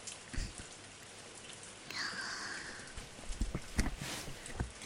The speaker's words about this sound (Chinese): 这雨真的是太大了